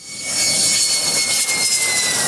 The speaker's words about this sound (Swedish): De 2 nya stridsflygplanen landade idag på militärbasen i Taitung på Taiwan.